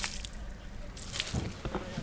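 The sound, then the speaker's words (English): Watered-down molasses splashes onto a town road as a crew dumps it from buckets, a dense wet sloshing and squishing that runs steadily with a few louder surges. “They add water to loosen it up, and then they dump it on the road.”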